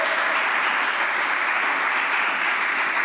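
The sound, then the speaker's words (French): A church audience applauds during a service, a steady, dense wash of many hands clapping loudly without a break throughout. “Est-ce qu'on peut acclamer la parole de Dieu ?”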